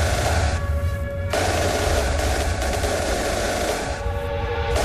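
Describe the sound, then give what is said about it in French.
A harsh arena entrance sound effect at a stadium, likened to machine-gun bursts: a dense, loud, roaring wash with tonal layers that shifts abruptly a few times and plays alone without voices. “Ça fait rafale de mitraillette. Violent.”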